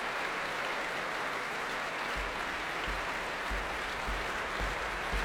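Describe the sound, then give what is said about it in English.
Applause from a large concert audience at the Royal Albert Hall after a Schumann symphony, calling the conductor back to the stage: a dense, steady wash of clapping that holds at an even level throughout. “They're clamouring for Marin Alsop to return to the stage. Here she comes.”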